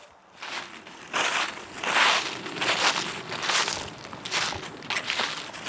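Crunching footsteps of someone walking up a steep hillside cemetery, a steady run of gritty, moderately loud steps at an even walking pace, with no talk.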